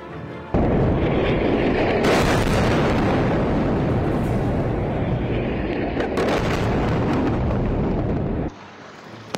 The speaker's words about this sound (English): as those airstrikes and artillery fire continue to rain down